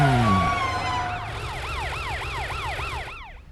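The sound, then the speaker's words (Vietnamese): A police car siren sounds loud and steady, first a falling wail and then a fast, repeating up-and-down yelp, over a low engine rumble. “Là xe cảnh sát Matt kìa”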